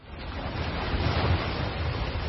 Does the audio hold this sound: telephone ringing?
no